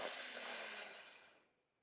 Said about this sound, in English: We'll breathe in deeply while extending our belly.